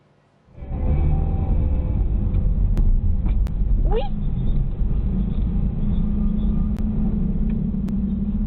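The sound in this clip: Steady low rumble of a car driving through busy traffic outside a shopping mall, captured by a dashcam. The engine and road noise start abruptly, then hold loud and even, with a few faint clicks and a brief chirp partway through.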